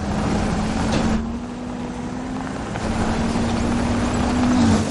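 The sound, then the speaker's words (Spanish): A battered van, missing part of its bodywork and the driver's door, drives away across the desert. Its engine gives a steady, rough, low drone whose level stays fairly even, rising slightly toward the end. “Los robots observan cómo se aleja por el desierto en la desvencijada furgoneta. le falta parte de la carrocería y la puerta del conductor.”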